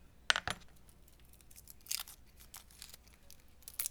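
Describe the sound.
Garlic cloves being smashed with a chef's knife: a few faint, sharp crunching cracks and knocks at irregular intervals, with quiet gaps between them and no talking.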